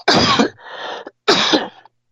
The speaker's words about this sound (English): Excuse me, I have to cough.